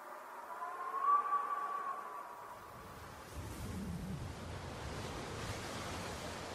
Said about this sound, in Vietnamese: Tiếng gió bên ngoài rít mỗi lúc một mạnh, tiếng mưa xối xả làm cho mọi cảnh vật xung quanh cũng rung lắc lên một cách dữ dội.